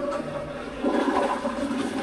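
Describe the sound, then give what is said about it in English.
A dual-flush toilet in a men's room flushes with a steady rush of water that grows louder partway through and keeps pouring to the end, with no voices. “this men's room, equipped with dual-flush toilets. Saves a little water if you pull up, opposed to pushing down.”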